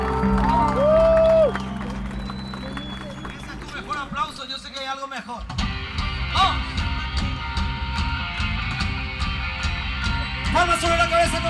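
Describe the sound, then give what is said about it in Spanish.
An audience at a Spanish-language church service applauds and shouts for Jesus. Clapping and cheering mix with music and grow fuller and more rhythmic in the second half. “Y dame un aplauso y un grito fuerte para Jesús, nuestro invitado de honor en esta noche.”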